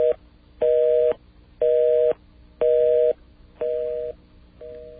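A telephone busy signal sounds after an attempt to dial a weather line: evenly pulsing mid-pitched beeps, each about half a second long with equal silent gaps, steady and alone.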